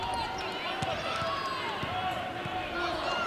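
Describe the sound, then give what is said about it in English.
A basketball is dribbled on the court during a women's game: a few soft bounces sit under steady crowd murmur, with a commentator talking throughout. “Pulls up on the dribble, feeds it to Maleska on the post.”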